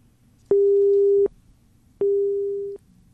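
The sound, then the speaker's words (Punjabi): A telephone busy signal sounds after a call to a radio show drops: two long, steady beeps of a single tone separated by a short gap, the second slightly fading. “ਸਾਡਾ ਸੰਪਰਕ ਉਹਨਾਂ ਨਾਲ ਟੁੱਟ ਗਿਆ ਜੀ।”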